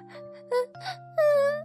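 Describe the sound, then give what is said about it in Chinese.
A woman cries sadly after finding mushrooms growing on her hands. A few short moaning bursts lead into a longer, sustained wail, over a low, steady musical drone. “莱雅走到镜子前，晃了晃，然后她伤心的哭了起来。”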